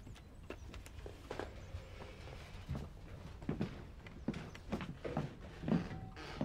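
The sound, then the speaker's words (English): Footsteps walking into a living room, a long series of soft, fairly regular steps with faint scuffs over low background noise. “They walk into the living room.”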